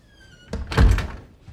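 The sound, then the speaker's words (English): A bedroom door being pushed shut: one solid, dull thunk with a short rattle trailing after it, heard alone. “then strides into his room and pushes the door closed, their eyes still locked.”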